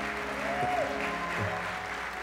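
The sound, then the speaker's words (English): An audience applauding during a church service, steady dense clapping that holds at an even level throughout. “Give them another big hand.”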